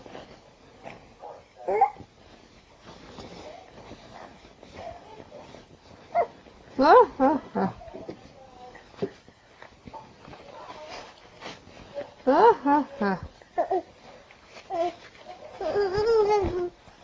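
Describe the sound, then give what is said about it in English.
A baby whines over a baby monitor in a few short, thin whimpering bursts, separated by quieter stretches of low hiss, with a slightly tinny tone. “She's whining. I can hear her on the monitor.”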